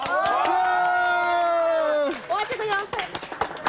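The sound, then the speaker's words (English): Cheering and clapping from a group at a gathering: a long, steady, drawn-out vocal cheer gives way to a lively burst of irregular hand claps mixed with short shouts. “各位，大家一起，一二三，鼓掌！”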